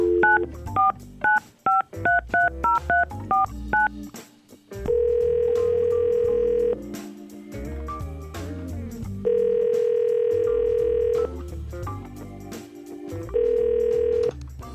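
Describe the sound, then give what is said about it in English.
Touch-tone dialing of a phone number, a quick run of short beeps, then three long steady ringback tones with pauses between them as the call rings through. Music plays underneath the whole time. “So we're going to see if we can get more than a voicemail right now by calling Kaitlyn”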